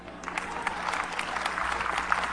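Audience clapping, a dense and steady patter of many hands at moderate loudness that lasts the whole clip without a break.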